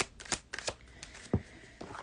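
Tarot cards are shuffled and drawn, giving faint, quick papery flicks and riffles in an uneven rhythm, with a sharper slap near the middle and no voices.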